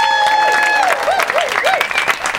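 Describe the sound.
An audience applauds to welcome a guest comedian. The clapping is dense and steady and lasts the whole two and a half seconds, with some tonal whoops or sounds running through it.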